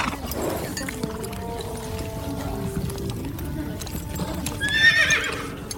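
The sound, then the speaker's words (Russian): Horses trot with a steady, continuous clip-clop of hooves. A horse whinnies near the end. “Хороши у вас лошадки”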